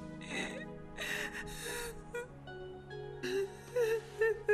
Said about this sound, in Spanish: Por Dios, no llores.